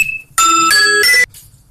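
An alarm clock ringtone sounds as a short electronic melody of a few bright, bell-like tones at shifting pitches, ringing alone for under a second before cutting off into quiet.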